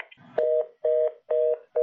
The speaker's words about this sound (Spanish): como ustedes pueden ver, ha bloqueado la llamada y no nos dejan continuar en la conversación con Saíli Navarro, hija de Félix Navarro